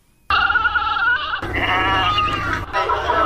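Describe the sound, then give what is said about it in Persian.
Goats and sheep bleat loudly at a livestock market in Kabul's 500 Famili area ahead of Eid al-Adha, with overlapping cries that continue steadily without a break. “گزارش با صدای مواشی آغاز می شود.”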